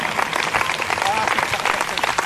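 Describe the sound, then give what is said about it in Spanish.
A church audience applauds during a service, with many hands clapping in a lively, dense patter that holds steady throughout. “Denle un aplauso al Señor, hermano.”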